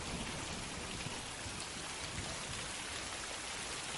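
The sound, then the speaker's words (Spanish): Heavy downpour of rain, a dense, steady hiss of pouring water that holds an even loudness throughout with no talking. “Sigue diluviando.”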